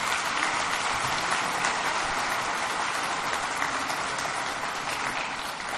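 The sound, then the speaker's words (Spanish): An audience at a public event in Mexico gives sustained applause for the head of a national nursing corps, a dense and steady patter of many hands at moderate volume. “La jefa Fabiana, que yo quisiera que se ponga de pie, que le demos un aplauso”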